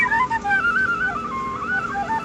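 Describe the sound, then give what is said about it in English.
A penny whistle blown in a breathy, wavering tone, the pitch sliding up and down between a few notes over about two seconds, fairly loud and heard alone without talk. “Penny whistle, sir?”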